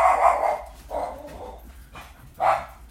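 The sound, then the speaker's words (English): A pet dog barks in three spaced bursts, each full and fairly loud, with short gaps of quiet between them. “Yep, that's my dog.”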